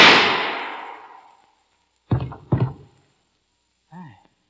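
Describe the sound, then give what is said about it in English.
A loud gunshot with a broad burst that fades over more than a second, followed by a few short voice-like sounds. “The shot came from right there. Shoot! Shoot!”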